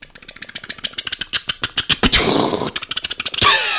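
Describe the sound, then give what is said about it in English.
Sputtering put-put of a 1965 Dodge Dart with a worn muffler driving past, rapid regular pulses broken by a short hissing burst midway, then more pulses and a final burst. “The turtle, on the other hand, liked to take his time driving around in his 1965 Dodge Dart. Here he comes.”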